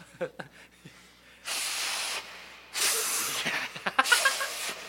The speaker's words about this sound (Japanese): じゃあ行くよ鼻かみよ